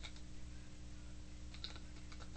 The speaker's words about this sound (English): I'm going to type in Rochester.